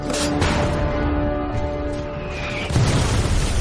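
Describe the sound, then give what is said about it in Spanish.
Artillery shells fired and exploding among German mountain-division soldiers, a dense, heavy rumble of booming blasts that swells into a louder burst near the end. “Los proyectiles sobrevuelan sus cabezas y caen entre los soldados alemanes de la división de montaña.”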